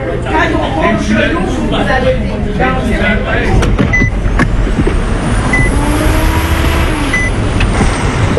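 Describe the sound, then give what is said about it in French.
Heavy trucks at a large highway truck stop at the exit of Edmundston, including a 55-tonne rig. A steady, loud rumble of engines and traffic runs throughout, with a few short high beeps. “À la sortie d'Edmundston, il y a un immense relais routier.”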